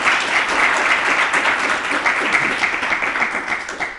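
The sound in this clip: A live audience in Bielefeld applauding to welcome a football club's sporting director: dense, steady clapping from many hands, continuous throughout and easing slightly toward the end.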